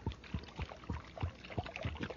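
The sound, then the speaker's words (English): Fuel glugs as it is poured into a vehicle's tank, a steady run of about eight low, hollow gulping pulses at an even rhythm, fairly faint, with no voices. “But you hear that? The driver's filling up the tank with some super fuel.”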